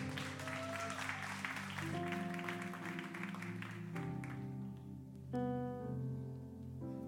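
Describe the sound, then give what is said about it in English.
An audience applauds to welcome a pastor at a church service. Steady clapping rises over sustained keyboard chords, then fades while the chords carry on. “Why don't you guys give him a hand?”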